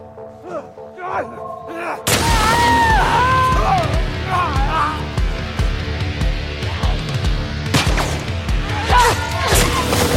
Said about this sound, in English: Double barrel shotgun. Incendiary shells. Equipped.